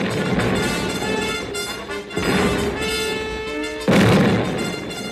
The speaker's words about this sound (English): The Confederate artillery thundered the beginning of the end.